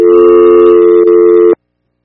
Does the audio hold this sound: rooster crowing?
no